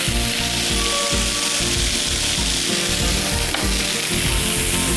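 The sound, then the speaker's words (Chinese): Loud, steady sizzling of peeled, diced tomatoes and ketchup being stir-fried in a pot. The crackle runs the whole time, with repeated low stirring and scraping sounds every moment or so underneath. “都在这个锅前面那块炒，所以这样呢，我们稍微炒一炒，就可以把它翻一翻。”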